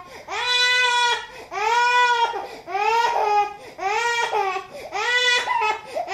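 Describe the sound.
A baby crying hard: five loud, sustained wails in a steady rhythm, each a strained, harmonic cry separated by brief gasps, with no other sound alongside.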